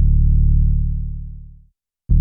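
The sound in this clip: Dry Omnisphere synth bass with no plugins: a deep, sustained note slowly fades to silence, then another note starts abruptly just before the end.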